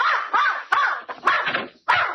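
A dog barks in a few loud, rough bursts with short gaps between them, alone without voices.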